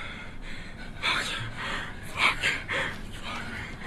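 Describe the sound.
Heavy panting from a man standing in a tent, a quick series of rough, breathy inhales and exhales at moderate loudness with no talk.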